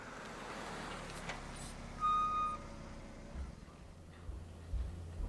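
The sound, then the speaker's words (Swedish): A car parking outside a family's house: a low vehicle rumble runs throughout, with a short high beep tone in the middle and a few soft knocks toward the end. “Vi kör hem till familjen Martuccis hus och parkerar utanför.”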